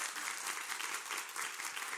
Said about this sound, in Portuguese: Aplausos agora pra essa falarina.